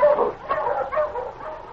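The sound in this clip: A sled dog team barks on a snowy trail with a few short, high yips and whimpering barks in quick succession.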